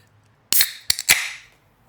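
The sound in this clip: A freshly opened beer can cracks open with a few sharp metallic snaps, followed by a bright fizzing hiss that fades away over about a second. No voices are heard.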